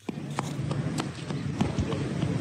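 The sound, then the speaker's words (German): Quick footsteps of a small boy running across a square lined with closed shops in Muzaffarabad, Kashmir, a rapid uneven patter of light steps over a steady background hiss. “Ein kleiner Junge läuft über einen Platz, der von geschlossenen Geschäften gesäumt wird.”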